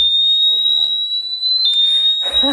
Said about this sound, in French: Hop, on verrouille l'antivol. Il est sur le vélo. Il bouge plus, il va s'initialiser. Et à partir du moment où je le bouge, je manipule. Une première alerte. Et si je continue?